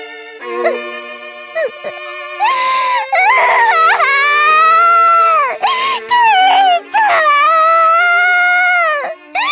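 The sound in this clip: A girl crying in loud, drawn-out wails whose pitch wavers up and down, broken by short gaps and sobbing catches between the longer cries.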